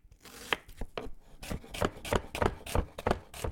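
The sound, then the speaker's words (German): An onion is chopped with a knife on a board: many crisp, sharp knife strikes in a fairly steady, quick rhythm, heard alone and at moderate volume. “Aber die Zwiebel schneiden sich nicht selbst”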